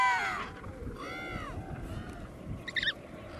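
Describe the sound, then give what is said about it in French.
An Adélie penguin chick's begging call: a faint arched harmonic cry lasting about half a second, followed by a few brief high chirps over a low, rumbling background. “ça c'est un cri de poussin qui espère avoir son parent dans le coin, qui reconnaisse son cri pour se faire nourrir.”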